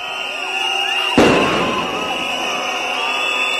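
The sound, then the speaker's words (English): A street protest in Tbilisi, Georgia, on its fourth night: a continuous roar of thousands of angry protesters, broken once by a single sharp, loud bang from a police tear gas grenade, after which the crowd noise carries on. “The sound of thousands of furious protesters and the clatter of tear gas grenades from the police, who also deployed a near incessant freezing spray from their water cannon.”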